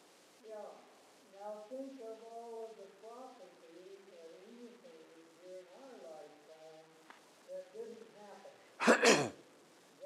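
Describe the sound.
A man clears his throat once, a short, harsh, loud burst near the end after several seconds of talking.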